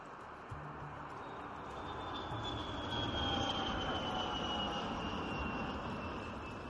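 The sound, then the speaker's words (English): Aircraft engine at an airport in Lagos, a steady, broad, low roar that swells slightly toward the middle, with a faint high whine above it. “Welcome to Lagos International Airport.”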